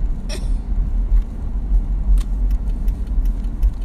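Car driven slowly, a steady low engine and road rumble throughout, with light clicks and rattles scattered over it.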